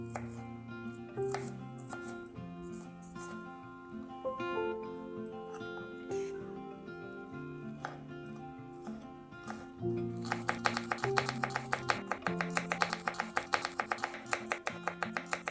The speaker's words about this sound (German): Deswegen schneide ich ihn jetzt hier in den Salat hinein.